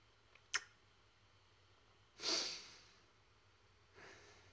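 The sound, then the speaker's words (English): A quiet, deep breath follows a single sharp click. The airy exhale swells and fades slowly, then a softer breath comes after it. “Just want to take that deep breath there. I mean that literally.”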